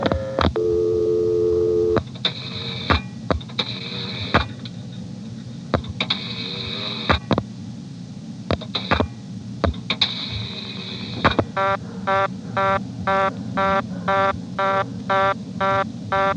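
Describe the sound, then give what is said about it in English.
A telephone dial tone in a step-by-step exchange times out into reorder tone. A steady tone is followed by clicks and short tone bursts, then a rapid, even run of repeating beeps until the end. “I'm now going to let the dial tone time out.”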